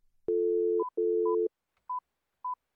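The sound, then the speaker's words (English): A telephone dial tone sounds as someone calls a city election hotline in Phoenix. The steady tone is broken once and overlapped, then followed, by four short, higher keypad beeps spaced apart. “The show's Lauren Gilger dialed a few numbers to see what kinds of calls they're getting.”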